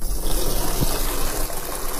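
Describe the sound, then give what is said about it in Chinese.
Tap water gushes steadily from a bathroom faucet into a plastic cola bottle, making a continuous, loud, even rush of filling water with no talk. “打开洗手间的水龙头，用可乐瓶接了一瓶水”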